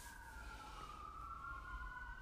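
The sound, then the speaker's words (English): Faint emergency vehicle siren heard at a home, a steady unbroken wailing tone that slowly falls in pitch, with no talking over it. “I'm hearing, I don't know if y'all can hear it, but I'm hearing sirens in the background at my place”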